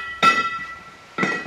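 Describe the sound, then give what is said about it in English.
Scuba tanks clinking together on the Caribbean island of Bonaire: two sharp metallic clinks about a second apart, each with a short ringing tail, fairly faint. “Think scuba tanks.”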